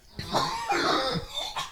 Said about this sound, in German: Ja, Husten.